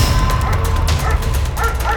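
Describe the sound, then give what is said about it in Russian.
Dogs bark at a bear in the taiga: a continuous, dense run of many overlapping barks, yips and whimpers that stays loud throughout, with no clear gaps between calls. “На пятый день в тайге собаки обложили медведя.”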